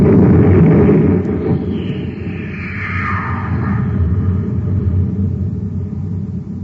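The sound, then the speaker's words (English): A spaceship's cosmic torpedo gun fires with a deep, loud rumbling blast that eases slightly, then swells into a sustained low roar with a faint whooshing sweep. “Open the breech to the cosmic torpedo guns. Right. Breech open, sir. Put them in and close it. All right, Happy. Fire the torpedo.”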